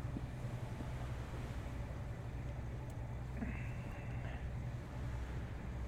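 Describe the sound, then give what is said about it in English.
Low, steady engine drone of a boat motoring very slowly across smooth, calm water toward an island. The hum runs continuously at an even level, with a constant wash of wind and water noise over it. “So we seem to be motoring very slowly over towards Penguin Island.”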